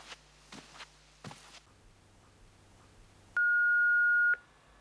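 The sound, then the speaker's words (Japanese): Answering-machine beep before message playback: a single steady, high-pitched tone lasting about a second, following a few soft footsteps in a quiet room. “あ、留守電。”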